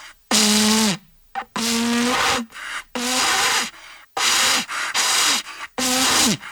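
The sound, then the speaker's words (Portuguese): Breathy attempts to blow a World Cup vuvuzela at a radio studio decked out for Brazil: several loud, airy blasts, each carrying a low wavering buzz that never settles into a clean note, separated by short gaps. “eu tenho aqui a Vuvuzela da Copa, peraí, deixa eu tocar a Vuvuzela, só um minuto.”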